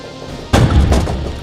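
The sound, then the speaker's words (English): A heavy, booming crash sounds as an airship is dropped straight down onto a gun port. The single sudden impact is followed by a loud, sustained low rumble. “Now drop us straight down. We'll plug up the Baron's gun port with his own airship.”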